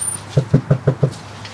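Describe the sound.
Five quick, evenly spaced knocks land on the door of a house during door-to-door campaigning. The knocks are firm, hollow and moderately loud, with no talk over them.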